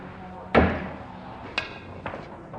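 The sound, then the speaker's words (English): Sharp knocks of a one-handed, jacked-up pool cut shot sending a ball toward a pocket: three crisp clicks, the first loudest and the next two fainter, over a low steady background. “Try to cut the ball in that pocket one-handed, jacked up.”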